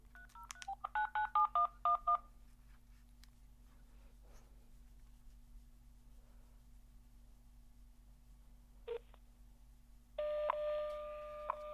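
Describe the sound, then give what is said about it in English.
Touch-tone DTMF keypad tones dial an outbound call: a quick run of short, clean beeps, then quiet line hiss, one brief beep, and a steady sustained tone to the end. “One more outbound test, because I just love dialing outbound, is this.”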